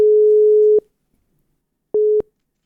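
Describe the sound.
A telephone busy tone sounds after the other party hangs up. One long steady beep at a single pitch is followed by silence, then a second, shorter beep at the same pitch.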